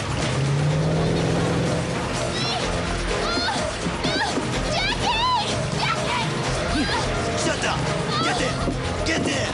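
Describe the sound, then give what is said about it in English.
Motor launch engine pulling away from a quayside: a loud, steady motor drone with water sloshing, holding level for the whole clip while other sounds play over it. “runs along the quayside after the motor launch.”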